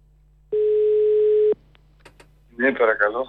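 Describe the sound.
A telephone dial tone on a call sounds as one steady, loud, single-pitched tone for about a second. A few faint clicks follow, and then a voice begins speaking.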